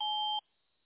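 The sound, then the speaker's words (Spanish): A voicemail recording tone sounds as one short, steady electronic beep, clear and alone, then cuts off abruptly into silence. “Cuando escuche el tono, por favor, grabe su mensaje.”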